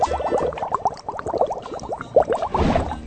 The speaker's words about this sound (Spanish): Voy a aprovechar porque tengo que lavar este trapito porque tengo que limpiar aquí lo que es la cocina. Esto es el lavadero.